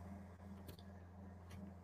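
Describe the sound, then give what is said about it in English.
Two faint computer mouse clicks, short and dry and spaced under a second apart, over a low steady hum with no voices. “Yeah, we can click on some more of them.”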